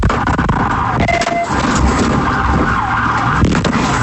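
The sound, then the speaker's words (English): Sirens and engine noise from a police vehicle pursuit in Fernandina Beach form a loud, continuous, dense wash of sound with wavering siren tones running through it. “That sound from a vehicle pursuit in Fernandina Beach.”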